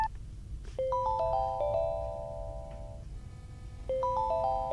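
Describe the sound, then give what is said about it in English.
Electronic chime from a 3G Daisy Player audio book player accessing a newspaper: several clear tones stacking into a rising arpeggio, held briefly, then the same chime starting again near the end. “that sound is the 3G Daisy Player accessing the newspaper from the Vision Australia Library Service”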